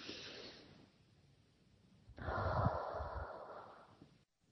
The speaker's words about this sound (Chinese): 好，跟着我一起深呼吸。好，再来深呼吸。